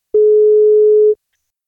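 Telephone ringback tone heard while calling someone: a single steady, pure mid-pitched beep lasting about one second, followed by silence.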